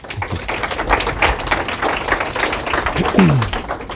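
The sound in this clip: Audience applause welcoming a speaker: dense, fairly loud clapping from many hands. It forms a continuous patter of sharp claps that holds steady throughout.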